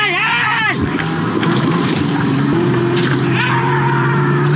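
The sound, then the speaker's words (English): An ice fishing shanty being dragged off the ice with a man inside makes a loud, continuous grinding scrape, with squealing, wavering tones at the start that return near the end over a steady low drone. “If you want to know what that real sound is, that is an ice fishing shanty being dragged off the ice with the guy inside.”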